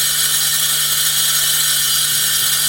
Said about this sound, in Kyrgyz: Учурда аянтты тегиздөө үчүн атайын техникалар тынымсыз иштеп жатышат.